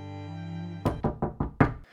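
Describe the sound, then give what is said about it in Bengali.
Knocking on a room door: five sharp, evenly spaced knocks that follow a low, steady droning tone, with no voices. “ঘরের দরজায় টোকা পড়ল”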